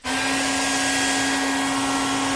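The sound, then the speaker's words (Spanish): A hair dryer blows a woman's hair with a steady, loud whoosh of air and a constant low motor hum. It starts abruptly and runs unbroken to the end. “Le seca el pelo.”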